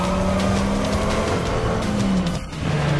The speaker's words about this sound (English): She peels out and speeds away, the convertible's headlights glowing in the dark.